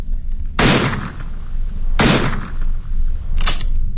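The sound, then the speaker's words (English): Three loud, sharp revolver shots fired into the sky in a Sherlock Holmes drama, spaced roughly a second and a half apart, each crack trailing off into a brief decaying tail. “Raise your revolver to the sky, Mr. Holmes. Empty it.”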